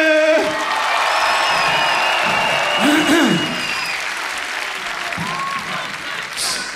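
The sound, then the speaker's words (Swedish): Audience applause at a concert at Cirkus in Stockholm: dense, steady clapping with scattered whistles and whoops, while a voice speaks over the crowd. “en varm applåd”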